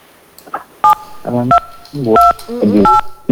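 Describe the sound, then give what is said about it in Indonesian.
Telephone keypad tones sound as a caller presses buttons, giving a few short, steady electronic beeps in quick succession, mixed with voice-like sounds. “Nomornya tertekan tuh bang.”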